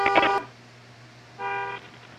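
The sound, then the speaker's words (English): A car horn honks twice, two short, bright, tonal blasts separated by about a second of quiet, the second slightly softer than the first. “He ran me down. And he's honking the horn.”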